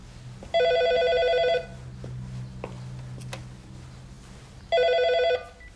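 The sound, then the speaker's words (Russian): A cordless phone rings indoors in Bat Yam, Israel, with two bright electronic trilling bursts. The first lasts about a second and the second comes after a quiet gap of several seconds, over a low steady hum. “Отец Тамар подходит к радиотелефону и берет трубку”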